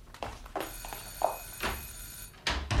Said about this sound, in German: Ihr Telefon? Das höre ich auch, ich bin ja nicht taub.